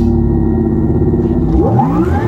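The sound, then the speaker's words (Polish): A sporty electric car's artificial driving sound: a loud, steady synthetic drone of layered low tones that sweeps smoothly upward in pitch near the end, like a rising electronic engine note. “Ten dźwięk sportowego elektryka nie wziął się znikąd.”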